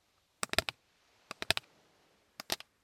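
A plastic card being handled and tapped, giving three quiet, quick bursts of sharp, crisp clicks separated by short silences.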